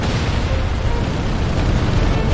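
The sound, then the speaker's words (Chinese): Explosions as German tanks are struck by distant artillery fire on a hilly battlefield, heard as a dense, loud, continuous roaring rumble with no clearly separate blasts. “紧接着，远方山丘火光连闪，多辆德军坦克接连被精准击毁。”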